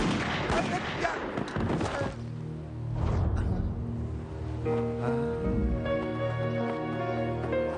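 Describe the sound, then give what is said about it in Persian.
Gunfire as police shoot a suspect: a dense, crackling burst of shots fills the first two seconds, followed by a softer thud and a steady tonal drone that carries on to the end. “براوو یک به پایگاه. موقعیت مهار شد. متهم تیر خورد.”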